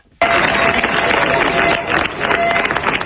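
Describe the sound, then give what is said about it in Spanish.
Residents of Niebla applaud a departing military emergency unit after ten days fighting a fire. Dense, loud clapping bursts in abruptly after a brief silence and continues steadily to the end. “Así han despedido entre aplausos los vecinos de Niebla los efectivos de la Unidad Militar de Emergencias”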